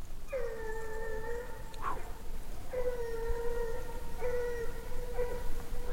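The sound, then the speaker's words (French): A dog howls in a few sustained, steady-pitched, loud calls with short gaps between them, over a low background hiss. “Là, le chien, il est fort”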